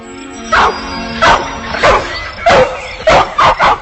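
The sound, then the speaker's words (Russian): An English setter barks seven times in loud, sharp, yelping bursts at an uneven pace, the last three coming quickly together. “Из кустов появилась собака, английский сеттер.”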